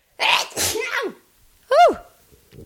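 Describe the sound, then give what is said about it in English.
A human sneeze: short breathy sounds build up, then one sharp, loud burst, followed by a faint trailing noise. “I feel a sneeze coming on. I don't know what to do. We're just going to let it happen.”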